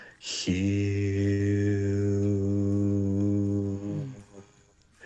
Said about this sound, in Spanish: Se llama el canto de Hu. La palabra Hu se escribe Hu. Se pronuncia Jiu. Suena así.